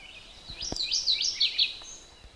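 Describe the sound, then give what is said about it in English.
A mourning warbler sings on a path on a cold, damp July morning: a short burst of clear, high, rolling warbled notes in quick succession, moderately loud, with a few faint low thumps beneath and no voices. “That's a bird called a morning warbler. It's right ahead of me on my path. Now it's chipping at me.”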